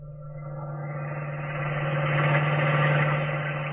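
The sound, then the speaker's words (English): A car engine drones steadily in a radio drama driving scene, a constant low hum with a faint vibrating tone that swells slightly louder in the middle, with no voices. “Now look, Rainey, we've been driving around for over an hour.”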